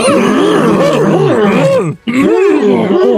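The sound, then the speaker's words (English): A voice imitates a character grunting: a run of low, drawn-out, voiced groans and grunts that bend up and down in pitch, with a brief pause in the middle before the grunting resumes. “He listened to Yoda's grunts. Can I get Yoda grunting?”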